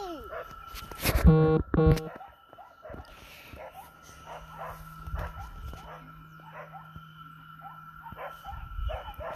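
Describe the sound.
A puppy barks and yips in short, high bursts repeated many times, fairly faint and uneven, with a voice also heard at times.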